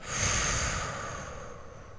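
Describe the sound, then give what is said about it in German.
One slow breath during a relaxation exercise, drawn in through the nose and let out through the mouth. A soft, airy rush swells early, then fades gradually, with no speech. “atme mal durch deine Nase ein und durch deinen Mund wieder aus”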